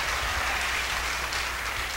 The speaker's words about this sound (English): This is my producer, Mr. Al Jackson Jr. Let's give him a big round of applause.